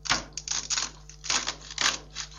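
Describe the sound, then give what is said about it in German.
A knife cuts through crisp green beans, making a quick series of sharp, snappy crunches in an uneven rhythm, moderately quiet and with no voices. “Guck mal, jetzt hört man, wie ich die Bohnen durchschneide. Hör mal. Ja, diese Bohnen, die eigentlich... So knackig, ne?”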